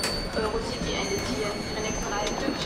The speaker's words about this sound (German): Meine Damen und Herren, herzlich willkommen in Saarbrücken auf Bahnhof.